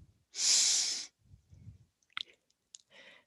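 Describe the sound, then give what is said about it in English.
A deep inhale during a yoga flow, drawn in as one loud, hissing breath lasting under a second, followed by a few faint clicks and soft breaths. “Breathe in.”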